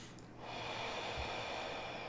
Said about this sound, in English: taking a deep breath in, deep breath out. Second time, inhale.